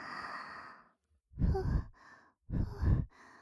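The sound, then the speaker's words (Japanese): Soft blowing into the ear: two close, breathy puffs of air, each a gentle rushing whoosh with a pause between them, after a quieter airy breath. “お耳ふうふうも好きなんでちゅね。じゃあ、ふ”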